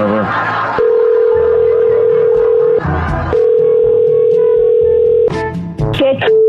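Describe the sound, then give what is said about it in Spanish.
Telephone dial tone on a prank call: a steady, unbroken hum that cuts off briefly and resumes, then a few quick beeping dialing tones at the end. Brief voices are heard near the start. “Espera, vamos a marcarle otra vez.”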